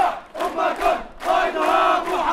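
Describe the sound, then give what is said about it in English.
Shouting from a crowd of Palestinian protesters outside a holy site in Jerusalem. Many voices cry out together in a few rising and falling surges over a couple of seconds. “That is the sound of Palestinian protesters in Jerusalem outside a site that is known as the Temple Mount to Jews and the Noble Sanctuary to Muslims.”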